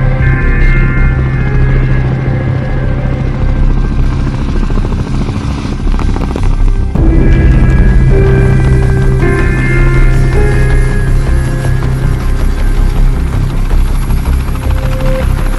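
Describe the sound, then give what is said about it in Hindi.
An aircraft coming in to land drones with a loud, steady engine and rotor-like roar that stays continuous and unbroken, shifting slightly in tone midway with no voices. “Shaheen one से पैगाम, operation complete, हम वापस आ रहे हैं। ठीक है, landing की इजाजत दी जाती है। मैं लैंड कर रहा हूं।”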